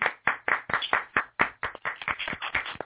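Audience applause greets the show's Fan of the Year: many sharp, irregular hand claps that are fairly loud and sound alone, with no voices or cheering over them.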